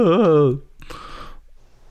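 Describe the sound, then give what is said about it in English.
A voice imitates a quiet wail of crying, a short wavering moan that trails off into a breathy exhale. “You just hear this quiet wail.”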